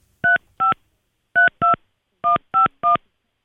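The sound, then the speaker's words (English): Telephone keypad tones beep as a number is dialed: seven short, clear electronic beeps in groups of two, two and three, with silence between, and another beep just starting at the end. “It was my fault. I was dialing it wrong.”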